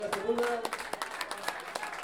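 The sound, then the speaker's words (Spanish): Scattered applause from the audience at a payadores gathering and counterpoint duel greets an arriving performer. Sparse, soft claps come under a man talking. “Bien, un aplauso a Daniela Sepúlveda.”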